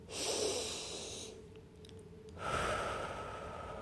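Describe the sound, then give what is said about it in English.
Deep breaths in and out during a relaxation exercise, two long, airy, rushing breaths separated by a short quiet pause, fairly loud and with no speech. “Take a deep breath in. And a deep breath out. Another deep breath in.”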